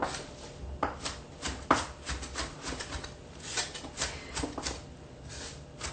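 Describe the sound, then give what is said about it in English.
A knife chops large-leaved mixed salad greens, making many soft, irregular taps and cuts that stay quiet throughout. “When I buy the mixed greens, sometimes the leaves are rather large, so I go ahead and chop them just a little bit.”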